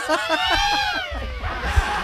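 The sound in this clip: A cat gives one long, drawn-out meow that slides downward in pitch, over low rumbling noise.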